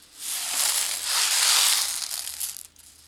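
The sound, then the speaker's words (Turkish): A batter of eggs, sugar, milk and flour being mixed makes a steady, hissing, scraping swish that swells and holds for most of the span, then drops away near the end. “İlk olarak yumurtaları kır, sonra şekeri, sütü ve unu ekle. Daha sonra hepsini güzelce karıştır.”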